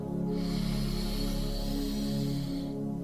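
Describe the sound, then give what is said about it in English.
A long, deep breath drawn in during a box breathing exercise: a steady, airy rush of inhaled air lasting nearly three seconds over a sustained tonal hum, with no talking. “And go ahead and take a big deep breath in.”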